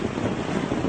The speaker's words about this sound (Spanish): esas olas de la playa de Nuadhibu golpean numerosos cuerpos sin vida devueltos por el mar a las costas de Mauritania